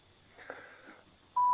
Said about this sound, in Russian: Звоним «Единое окно» администрации Бийска. Земельные вопросы.